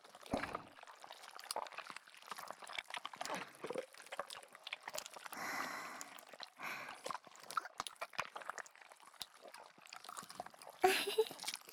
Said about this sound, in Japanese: ここから先輩の上でスライム遊びしますね。全身をぐちゅぐちゅしていきます。